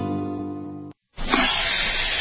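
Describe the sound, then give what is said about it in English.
Loud, steady hissing from an RV freshwater tank overflowing into the black water tank. A broad rushing spray starts after a brief silence and continues unbroken to the end. “But that's not a copperhead. That's the Sullivan's RV freshwater tank overflowing into their black one”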